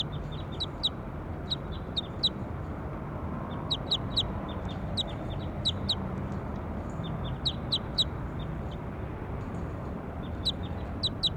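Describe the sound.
High, thin bird calls repeat in short clusters of chirps throughout, sharp and evenly spaced over a steady low background hum.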